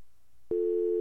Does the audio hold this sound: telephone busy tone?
yes